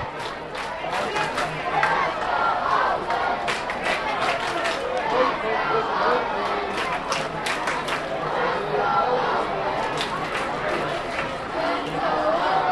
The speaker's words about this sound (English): You can hear they're chanting right now, and the Let's Go Oakland has a much higher pitch than it normally does because there's so many kids here.